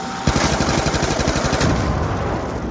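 Rapid automatic gunfire in a video game's zombie mode: loud, dense rattling shots repeat in quick succession throughout, with no talk.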